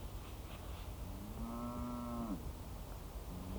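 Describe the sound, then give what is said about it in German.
A cow from a herd of cattle being driven lets out one long, low, drawn-out moo over steady background noise, and another moo starts faintly just at the end. “Jetzt schau dir das an. Jetzt treibt der Ochsenhans seine Kühe sogar bis hierher.”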